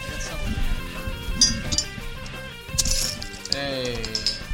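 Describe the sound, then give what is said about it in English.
A can of Miller High Life beer being cracked open: a few sharp metallic cracks and clinks, with a voice heard briefly near the end. “That's a crack and a cold one. Miller High Life, not a sponsor of the show or anything. I just like the beer.”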